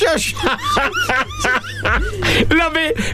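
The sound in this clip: A crow calling at a windowsill gives many harsh, honking caws in quick succession. The calls are loud and rough, and their pitch wavers from call to call.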